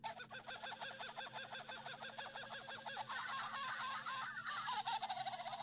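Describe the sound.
A toy kookaburra chirps electronically in a long, unbroken run of rapid, repeating cackling calls. The calls stay fairly loud and grow denser and more layered partway through.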